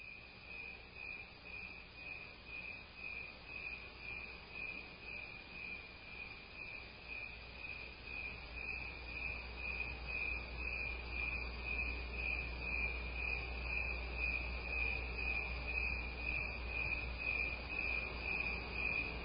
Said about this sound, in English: so if we go ahead and play the crickets, this is Crickets at Half Speed.